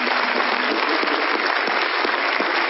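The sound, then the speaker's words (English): An audience at a special church occasion gives a round of applause, dense and steady clapping that stays at an even, loud level throughout. “Let's give them a huge round of applause, please, and welcome to this special”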